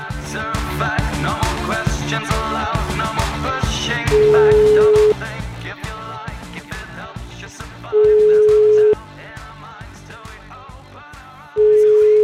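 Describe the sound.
A telephone call is placed and its ringing tone sounds: three steady, level tones, each about a second long, cut through loud rhythmic music that keeps playing underneath.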